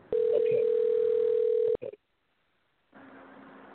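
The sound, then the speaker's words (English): Telephone number being dialed: a loud, steady dial tone with a few short key beeps over it, then clicks, a silent pause and faint line hiss. “Okay, I'm dialing a number now.”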